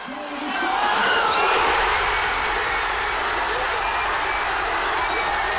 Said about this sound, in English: this is what it sounded like. This is the sound of Sam Kerr equalising for the Matildas against England.